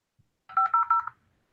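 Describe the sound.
Telephone touch-tone dialing: three short, bright beeps in quick, even succession, preceded by a faint low click.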